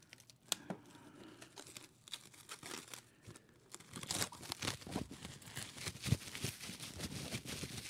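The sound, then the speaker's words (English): Shrink wrap being torn and peeled off a package, giving crisp crackling and crinkling bursts of plastic that grow busier and louder partway through, with no talk. “Unwrap the shrink wrap.”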